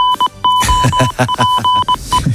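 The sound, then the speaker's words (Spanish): A goal alert sound effect: a loud, short electronic jingle of quick repeated beeps and steady tones, interrupted by punchy harmonic bursts, with no speech. “Suena el aviso de gol de tiempo de juego.”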